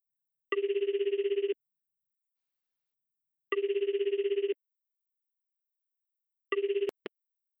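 Telephone ringing heard by the caller on an outgoing call: three buzzing, trilled ring bursts about three seconds apart, the third cut short, followed by a sharp click.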